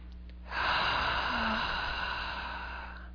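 One long, deep breath that comes in as a soft, airy rush, holds for roughly two and a half seconds, and then slowly fades away.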